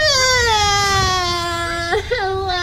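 A baby cries in one loud, sustained wail whose pitch sinks slightly, with a brief catch and break near the end before it resumes.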